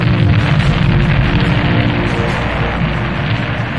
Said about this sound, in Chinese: 随着指挥员的号令，东风一号喷出浓烈的火焰，飞向蓝天。